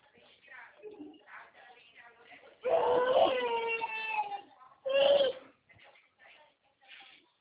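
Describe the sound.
A little girl cries in two loud, wavering wails, the second one shorter. Softer sobbing and whimpering sounds come before and after them.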